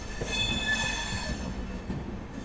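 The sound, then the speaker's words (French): A special midday train loaded with metal lunch boxes pulls into Churchgate central station in Bombay, rumbling steadily under high, thin wheel squeals that are loudest in the first second and a half before easing into a lower clatter. “À midi, un train spécial arrive à la gare centrale de Churchgate il est rempli de boîtes repas en métal”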